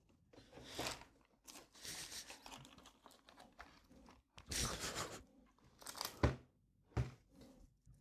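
Eating a chocolate praline while its wrapper crinkles and tears: a series of faint, irregular rustling bursts and sharp crackles with crunchy bites, broken by brief quiet gaps.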